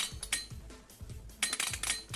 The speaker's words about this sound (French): tu vas cliquer sur ton dé pour lancer ton initiative